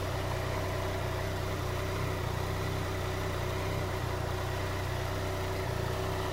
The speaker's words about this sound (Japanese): 無駄にふかしてみましたけどね